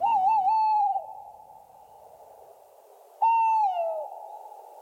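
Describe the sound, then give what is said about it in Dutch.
A male tawny owl hoots at night: two long, clear, tonal hoots separated by about two seconds of quiet. The first wavers before holding steady, and the second sinks slightly in pitch as it fades. “dit is een mannetje bosuil”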